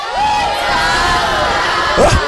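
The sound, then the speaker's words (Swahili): An audience cheers and whoops, a steady loud crowd roar with shouting voices throughout and a brief louder whoop near the end. “Makofi ya BJ.”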